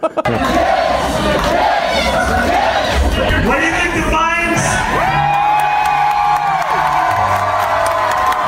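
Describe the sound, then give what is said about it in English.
Fans cheering, whooping and shouting in a loud, sustained roar that fills the whole clip, with a man's voice briefly speaking over the crowd. “Yeah, the fans are crowning and chanting yes.”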